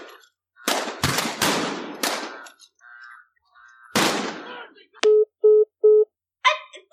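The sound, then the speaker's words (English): Gunfire in a shootout: a rapid cluster of sharp, loud shots, then a lone shot after a short pause, followed by three short electronic beeps. “Was that a shootout? What the fuck was that? I mean, it sure sounded like it.”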